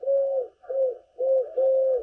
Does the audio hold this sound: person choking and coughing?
no